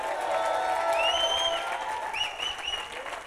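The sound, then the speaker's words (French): Audience applause and cheering at a church service, a continuous clapping patter with high whoops and cries rising above it. “Est-ce qu'on peut les acclamer, s'il vous plaît?”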